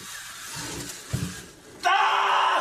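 A played screaming sound effect for hair being pulled out. A sudden loud, high, sustained scream bursts in near the end after quieter low sounds.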